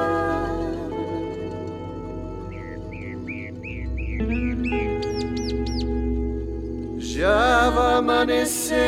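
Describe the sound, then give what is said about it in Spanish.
Small birds calling at dawn in Merlo: a run of short repeated chirps, then higher thin whistles, over a steady tonal drone. A louder burst of calls comes near the end. “presienten pajaritos con sus trinos y aleteos.”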